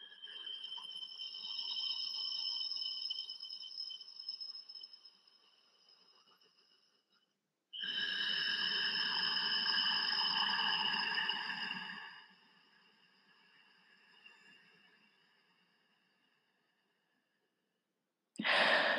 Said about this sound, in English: It's also offered is soothing, so soothing to your nervous system, this kind of oceanic sound like this.